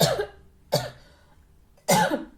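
Throat clearing: three harsh, raspy bursts, the first and last longer and louder than the brief middle one, separated by short quiet gaps, with no talking.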